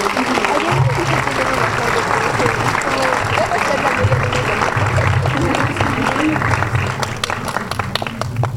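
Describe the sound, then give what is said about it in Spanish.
Audience applause greets a guest being introduced at an arts and education event: dense, steady clapping from a crowd that fills the whole stretch at an even loudness, with faint voices underneath. “Fuerte aplauso, por favor.”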